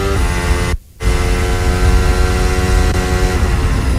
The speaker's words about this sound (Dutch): Op boordgeluiden van George Russell op jacht naar Carlos Sainz in de start van de grote prijs van België op Spa-Francorchamps.